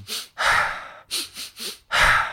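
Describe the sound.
Fast, energizing breathing from an old Sufi breath technique: six quick, forceful breaths in a steady rhythm, alternating longer and shorter bursts, with no other sound.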